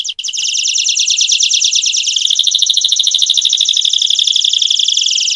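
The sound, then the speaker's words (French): A canary sings alone: a loud, continuous stream of high, rapid trills and warbles that runs the whole time without pause, with brighter chirping notes layered over the trilling in the second half. “Ce que vous entendez à présent, c'est un canari.”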